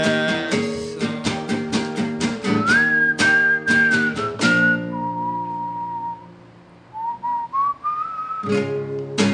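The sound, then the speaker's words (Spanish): Whistling carries the melody of a song in long, clear high notes that glide and rise, over punchy rhythmic chords from saxophone and backing instruments. The backing drops out briefly while the whistle holds a steady tone, then returns. “la parte del silbido va con saxo, eso, ¿no?”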